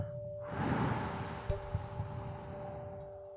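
A slow, soft exhale during a guided meditation: a breathy rush of air swells after a brief pause, then gradually tapers off over a few seconds above a faint, steady hum.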